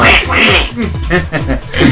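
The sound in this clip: A voice imitates a duck's quacking, loud nasal squawks in a short rapid series, strongly voiced and nearly continuous, standing in for a duck in a spoken story.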